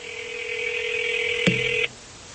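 Telephone dialing: a steady electronic phone tone holds for nearly two seconds, broken by a sharp click, then cuts off into quiet line noise.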